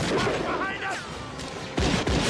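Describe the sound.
Gunfire in a movie soundtrack: voices and noisy action give way to two sharp, loud gunshots close together near the end.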